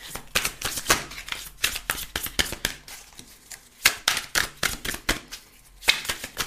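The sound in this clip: Oracle cards being shuffled by hand until a few drop out: many quick, papery riffling bursts in an uneven rhythm, with short pauses between runs of flicking.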